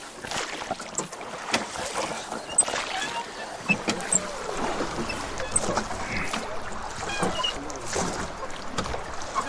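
A crew rows the gabare river barge la Marie down the Dordogne: steady oar strokes splash and creak, water washes along the hull, and wind buffets the microphone throughout.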